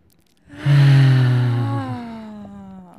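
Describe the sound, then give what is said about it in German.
A person takes a deep breath and releases it as a long voiced sigh that starts loud and slowly fades over roughly two and a half seconds, with no words spoken. “Dann lass uns erstmal einen tiefen Atemzug nehmen.”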